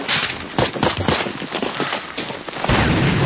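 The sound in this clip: Gunfire in a combat scene: dense, rapid bursts of sharp cracks and booms that overlap with almost no gaps, loud throughout and growing heavier near the end.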